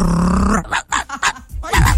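A person imitating a dog, giving loud, rough bark-like bursts in an uneven run and ending on a deep, rasping growl.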